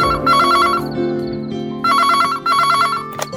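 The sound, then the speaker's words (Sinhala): A home landline telephone rings after a call is placed: a loud electronic warbling ring in two bursts with a short pause between them. It is heard alone, with no talk. “ධාර ගෙදර ලෑන් නම්බරයකට call එකක් අත්තේ.”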